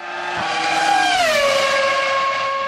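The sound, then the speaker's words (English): Formula One race car engine at the Circuit of the Americas in Austin, Texas: a loud, sustained, high-pitched whine rich in harmonics that drops in pitch midway through, with no voices. “Circuit of the Americas. Oh, COTA. That's where they have the F1 race.”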